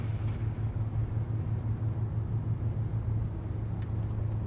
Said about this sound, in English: In Ruth's car.